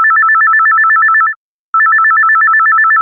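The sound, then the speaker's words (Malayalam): An incoming call rings on a telephone with a loud, warbling electronic ring. Two long bursts of rapid trilling are split by a short silent gap. “നമുക്ക് ആ phone attend ചെയ്യാം.”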